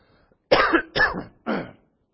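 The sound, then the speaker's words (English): Three harsh, loud throat-clearing bursts, each a rough guttural rasp with brief gaps between, heard alone with no talk. “Excuse me, I have a frog in my throat.”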